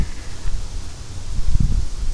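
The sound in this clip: Wind gusting through trees and branches in a yard makes a steady, broad rustling hiss with low rumbling swells, with no voices present.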